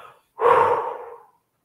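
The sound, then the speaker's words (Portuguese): A deep breath during a guided breathing exercise comes as a single airy, breathy rush lasting under a second, following a short silence. “Faça isso mais uma vez puxa o ar profundamente, prende o ar e solta.”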